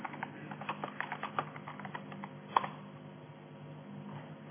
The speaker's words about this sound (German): dann tippen wir die Message.